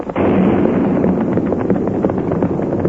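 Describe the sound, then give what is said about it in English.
A blasting-powder explosion at a mine in a valley at night hits suddenly and loudly, then becomes a sustained, heavy rumbling roar that carries on for several seconds. “They used blasting powder. It's so late. Today's work should be over.”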